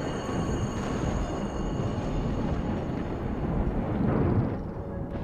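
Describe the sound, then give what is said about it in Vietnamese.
Thunderclap rolling out as a deep, continuous rumble in a night storm, low and grinding, swelling slightly louder near the end before easing back, with no voices. “lại thêm một tiếng sét nữa nổ vang trời, xé toạc màn đêm bằng thứ ánh sáng mờ ảo.”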